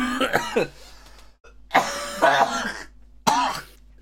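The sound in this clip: Harsh coughing from a man with lingering COVID, coming as a few separate bursts with short quiet gaps between them.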